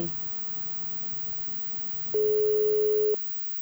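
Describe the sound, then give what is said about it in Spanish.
A steady telephone tone from an outgoing call being placed sounds once for about a second, a single even beep over a faint background hiss. “Así que está llamando nuestra producción a Olga.”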